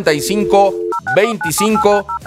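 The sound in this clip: Touch-tone telephone dialing of a number, with short dual-tone beeps in quick sequence interleaved with a voice speaking between the presses.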